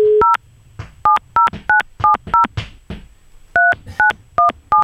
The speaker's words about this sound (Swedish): Ja, men vi ringer till honom